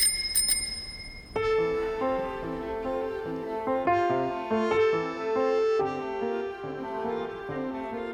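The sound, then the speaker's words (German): An old bicycle bell rung twice: a bright, quick double ring at the start, then melodic music takes over and continues steadily to the end. “Es war eine alte Fahrradklingel, die sie zweimal betätigte. Ri-ring, ri-ring.”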